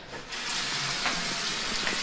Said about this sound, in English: wipe out my sink real fast